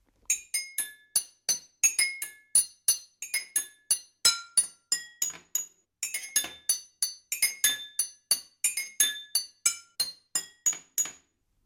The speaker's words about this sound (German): Normalerweise hört oder spielt ihr sie vermutlich nicht auf Tassen, Gläsern oder Schüsseln, sondern vielleicht eher mal auf dem Klavier.